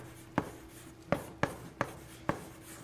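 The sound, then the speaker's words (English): Writing on a board makes five distinct scratchy strokes at irregular intervals, each a short, dry rasp over a faint background hum. “Wrong one. I'll just write here. Can everyone see this part?”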